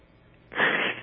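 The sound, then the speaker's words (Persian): A person who has been crying gives a single short, wet sniffle after a moment of near silence. “خیلی ببخشید آقای دکتر، دست نداشتم که گریه کنم ولی نمیتونم.”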